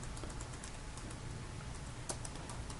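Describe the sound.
Keys tapped on a computer keyboard while typing a test command, a steady run of soft, quick clicking keystrokes over a constant background hiss.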